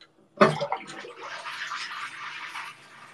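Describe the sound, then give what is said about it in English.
Water drains from a bathtub after the plug is pulled. A sharp clunk is followed by a steady, moderately quiet gurgling rush of water that continues to the end. “There we go. Drain, baby, drain.”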